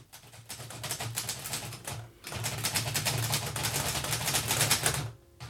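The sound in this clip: Rapid typewriter clatter as a secretary types the last report in a doctor's office: quick, crisp key strikes in busy bursts, a short pause near the middle, and a faint low hum beneath.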